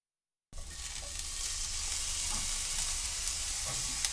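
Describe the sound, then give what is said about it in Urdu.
Shimeji mushrooms sprinkled with a little salt sizzle, spread out in an uncovered frying pan over low heat. After a moment of silence, a steady, dense crackling hiss starts and holds evenly to the end, with no talk. “شمجی کھمبیوں کو frying pan میں پھیلا کر ان پر تھوڑا نمک چھڑک دیں، ڈھکے بغیر دھیمی آنچ پر پکائیں اور اس دوران انہیں الٹ پلٹ کرتے رہیں۔”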